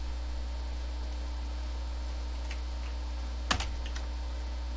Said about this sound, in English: Now we need to start the game. So I'm gonna type / Dentium.